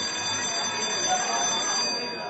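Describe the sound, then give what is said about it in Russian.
A bell rings as the last call before a circus show, a continuous, bright, shrill ringing that holds at a steady loudness throughout without pause. “Наконец, прозвенел последний звонок.”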